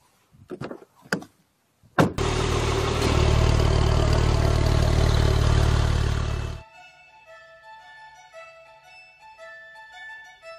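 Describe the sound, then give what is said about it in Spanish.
A car door and engine starting: a few short, sharp knocks, then a loud, steady engine roar for about four seconds that stops abruptly, leaving quieter tonal sounds. “agarro mi mochila, me subo al auto y salgo para la escuela”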